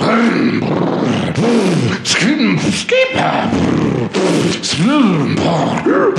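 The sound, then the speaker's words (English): A man's voice imitates a go-kart engine warming up with a loud, continuous growl that keeps swelling and sinking in pitch, like repeated revs. “I'm warming up my go-kart.”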